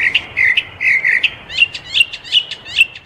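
Birds sing a lively run of bright, high chirps and short trills. The calls come in quick, rhythmic bursts and are loud and clear, with no voices over them.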